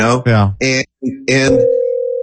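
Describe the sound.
Talk is followed by a steady mid-pitched telephone line tone that signals an incoming caller, holding unbroken until the end.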